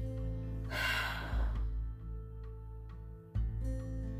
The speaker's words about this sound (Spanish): Una última respiración así de profunda. Llena tus pulmones, llénalos, llénalos. Sostén esa emoción que necesita ser liberada. Exhala por la boca.